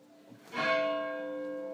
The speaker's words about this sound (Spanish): ¿Por qué están tocando tanto las campanas?